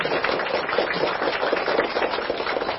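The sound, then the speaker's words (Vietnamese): Applause from a Buddhist audience welcoming a visiting senior monk, a dense, even patter of many hands clapping, moderately loud and steady throughout, with no voices. “Xin quý Phật tử cho một tràng pháo tay thật lớn chào”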